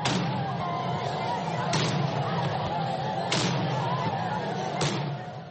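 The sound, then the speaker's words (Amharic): An artillery salute is fired in honour of generals at a funeral ceremony, with four heavy booms at even intervals over continuous crowd noise and talking. “ነቶም ጀነራላት ክብሪ ክብሃል ድማ 17 ግዜ መድፍዕቲ ተኩሱ እዩ”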